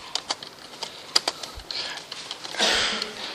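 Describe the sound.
Keys tap on a computer keyboard as a company name is typed, giving a few scattered, light clicks at an irregular pace, ending in a brief soft rustle.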